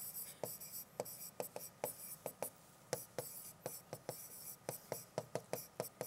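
Drawing on a board: many short, scratchy strokes and taps in an irregular rhythm, faint and heard alone without talk.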